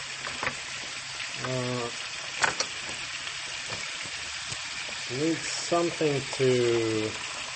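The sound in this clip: Meat frying in a pan gives a steady, bright sizzling hiss with occasional clicks and knocks. Voices speak intermittently over the sizzle.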